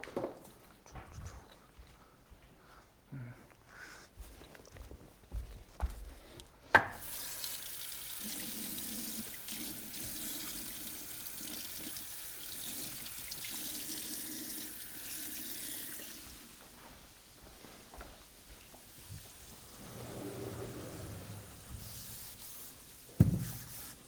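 A teacher wiping the classroom blackboard makes a continuous soft scrubbing swish lasting several seconds, with sparse knocks and shuffles before and after.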